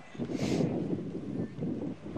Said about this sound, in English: Wind blowing the dust all around the field now.